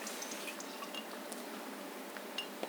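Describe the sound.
Water pours in a steady, even splashing hiss during a pagan pilgrimage ritual at the Donon, with a few faint drips breaking through.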